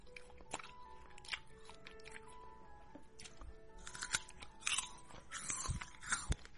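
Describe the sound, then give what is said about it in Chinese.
Crisp, juicy crunching as winter jujubes are bitten and chewed, a series of quiet crunches that grow louder and more frequent toward the end, with no talking. “我才没有偷吃呢，我在吃冬枣啊，还没有偷吃啊，人家光明正大的吃好不好？”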